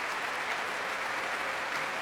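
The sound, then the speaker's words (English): Audience and concert orchestra applaud at the Royal Albert Hall, a dense, steady wash of clapping that holds at an even level throughout, with no voices over it. “And members of the concert orchestra joining in the applause for these visitors from the other side of the world.”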